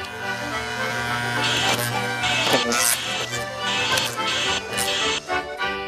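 Cartoon shaving sound as a character is shaved down round: several rasping, buzzy strokes in short bursts over a steady tonal background.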